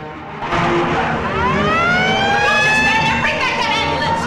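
An ambulance speeds off with a loud, sustained engine roar and sweeping, wailing tones that rise and fall over it.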